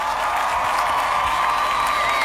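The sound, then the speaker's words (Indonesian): Audience applause mixed with cheering and a few whoops forms a dense, continuous roar of clapping that holds an even level from start to finish. “Yeay! Kasih tepuk tangan yuk.”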